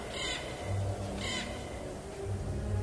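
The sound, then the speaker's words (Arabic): A crow circling a house caws harshly and insistently, two rasping calls about a second apart, standing out over a steady background hiss. “اول ما قال الكلمة دي فعلا سمعت صوت غراب، كان صوته مستفز وعمال يصرخ”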